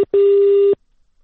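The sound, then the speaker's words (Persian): A telephone busy tone sounds after a phone line cuts off mid-interview: a very brief beep, then one longer, loud, steady mid-pitched tone lasting about half a second, followed by silence. “ارتباط ما قطع شد با مهر جاودانفر، کارشناس مسائل خاورمیانه در اسرائیل.”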